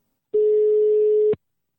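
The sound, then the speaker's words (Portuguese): A telephone line tone sounds while a call is being placed: one steady, mid-pitched beep lasting about a second, alone against silence. “Eu, eu, eu vou ligar pra Samira Xangozeira.”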